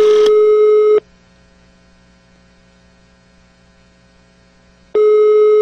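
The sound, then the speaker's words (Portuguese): Telephone ringback tone heard while placing a call: a loud, steady buzzing tone lasts about a second, then a long silence with faint hum follows, before the same tone starts again. “hora de ligar daqui e vamos colocar o Bolsonaro”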